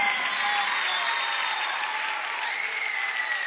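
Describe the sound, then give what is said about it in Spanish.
Sustained applause from a live concert audience, a dense, even clatter of many hands clapping that holds at a steady loudness throughout, with no voices over it. “El aplauso fuerte para Sergio.”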